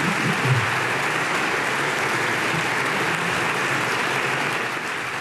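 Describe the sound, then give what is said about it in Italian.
Sustained applause fills a parliamentary chamber as members stand after a head of state's speech at an anniversary ceremony for a constituent assembly's inaugural session; dense, steady clapping continues throughout, easing slightly at the very end. “l'Aula si è appena alzata in piedi, applaudito il discorso del Presidente della Repubblica”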